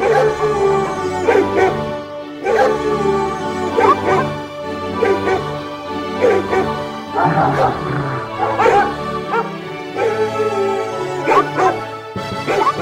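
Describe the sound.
Dogs bark and yip in many quick, repeated bursts, with whimpering tones mixed between the barks throughout.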